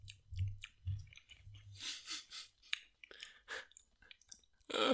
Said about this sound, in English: For people that hate hearing the sounds of people eating, I probably should have said, don't listen to the next 10 minutes.